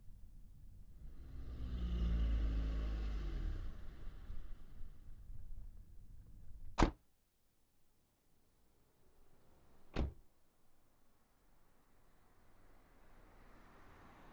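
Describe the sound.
A taxi's engine gives a low, steady rumble for several seconds, then fades as two sharp, isolated impacts ring out a few seconds apart, with near quiet between and after them.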